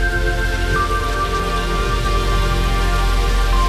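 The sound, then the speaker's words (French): Rain falling as a dense, even hiss that holds steady throughout, with a faint sustained tone running beneath it. No voices are heard. “La pluie.”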